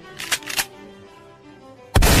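A single loud gunshot bursts in near the end, after a couple of softer bursts and a quiet stretch.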